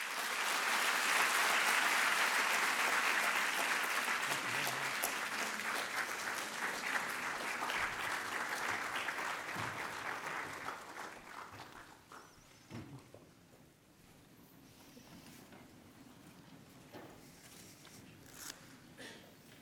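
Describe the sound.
Audience applause welcoming speakers to a Stanford GSB panel: loud, sustained clapping from many hands that slowly fades and dies away about two-thirds through, leaving faint scattered taps and movement.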